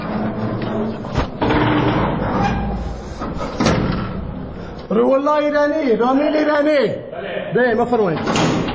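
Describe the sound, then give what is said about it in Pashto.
Iron door of a prison in Herat being opened by a guard, with a few sharp metallic knocks and scraping, followed by a man's voice calling out loudly. “د هرات د زندان یو ساتونکی د دغه محبس اوسپنیزه دروازه خلاصوي او پر دوو ایرانی بندیانو غږ کوي.”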